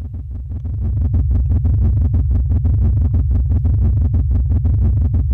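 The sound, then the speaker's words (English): Artificially boosted sound of the old star Chi Hydrae in the constellation Hydra: a loud, continuous stream of rapid, evenly spaced low thumping pulses, like a steady drumbeat over a deep rumbling drone. “here's the artificially boosted star sound of the star Chi Hydrae, an old star in the constellation Hydra.”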